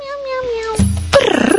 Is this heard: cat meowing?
yes